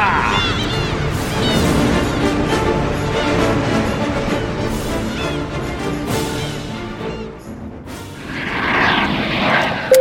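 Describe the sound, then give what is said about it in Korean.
An airplane lands at Honolulu international airport, with a loud, steady engine roar filling the whole clip that dips briefly and then swells again toward the end. “승객 여러분, 저희는 잠시 후 영등포 호놀루루 국제공항에 착륙합니다.”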